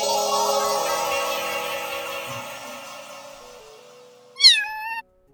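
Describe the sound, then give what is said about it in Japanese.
A kitten gives one short, high meow near the end with falling overtones. Before it, a long ringing, shimmering tone slowly fades almost to silence. “ほーら、あっという間に可愛い子猫ちゃんになっちゃった。”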